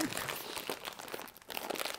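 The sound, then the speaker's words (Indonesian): Crinkling wrapping as a package is unboxed, a dense, continuous crackle of plastic with a brief lull midway before the rustling picks up again. “buka aja lah mumpung lagi rekaman nih kan kita unboxing tapi nggak ada videonya gitu”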